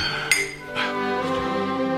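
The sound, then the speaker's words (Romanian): Drinking glasses clink together in a family toast, one sharp, bright chime standing out first, followed by a couple of softer clinks over a sustained, humming tonal background. “Mamă, tată, să ciocnim un pahar.”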